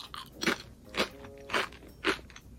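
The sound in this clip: Someone crunches potato chips topped with bonito flakes. There are four evenly spaced, crisp bites with soft chewing between them, and the sounds are quiet and close.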